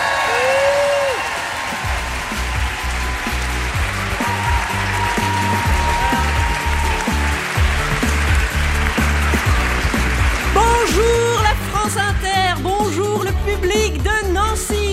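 A live audience in Nancy cheers and applauds loudly, with continuous clapping and scattered whoops that last about fifteen seconds.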